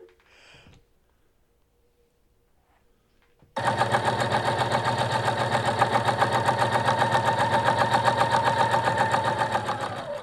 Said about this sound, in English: Sewing machine. Sewing machine? Yeah. That's your final answer? Yeah. You're correct.